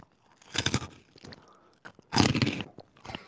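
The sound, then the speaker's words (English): Biting and crunching into jalapeno Cheetos: two loud, dry crunch bursts with quieter chewing and small crackles between them. No voices. “I have a bag right here of jalapeno Cheetos, and I'll take a bite of one of them.”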